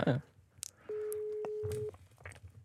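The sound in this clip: A telephone ringing tone sounds once as a single steady electronic buzz lasting about a second. Brief clicks and short voice fragments come just before and after it.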